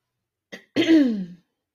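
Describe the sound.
Throat clearing, heard alone: a short, soft catch, a brief pause, then a longer, louder and raspy rumbling clear that fades out.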